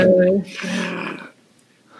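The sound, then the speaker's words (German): A human voice imitates a wolf growling: a low, rough snarl lasting about a second, then a fainter breathy trail that fades out. “aus den Untiefen des Gebüschs knurrt euch etwas an. Der Hund. Der Hund. Ihr guckt nochmal genauer. Es ist kein Hund, es ist ein waschechter Wolf.”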